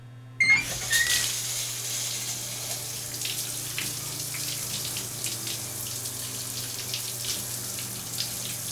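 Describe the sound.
Running water for a shower starts abruptly and flows as a steady, even rush throughout, with a low constant hum beneath it.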